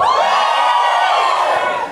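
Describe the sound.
An audience yells its choice together in one sustained loud shout, a dense roar of many voices lasting about two seconds.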